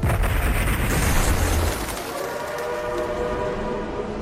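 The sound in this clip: A train arriving at a station: a loud, broad rumbling roar that drops in level partway through and continues as a steadier, lower rumble.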